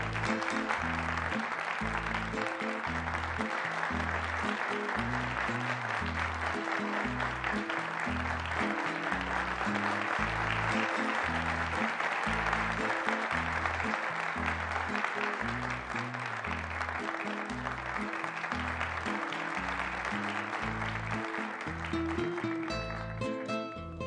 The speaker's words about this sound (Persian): قبل از هر چیز خواهش میکنم که به افتخار آقای معال سرمربی جدید تیم ما یه دست زیبا و جانانه بزنید.